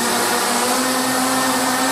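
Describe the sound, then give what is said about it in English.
Steady, loud whirring drone from the propellers of a large multi-engine flying machine with 64 motors, a replica of a futuristic airship design, starting up inside a sports center; a constant hum holds an even pitch throughout. “As the propellers roared to life, the enlarged vision of Verne's futuristic machine slowly rose into the air.”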